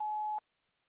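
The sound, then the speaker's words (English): An answering machine gives a single recording tone, a steady mid-pitched beep lasting under half a second that cuts off into near silence. “At the tone, please continue recording.”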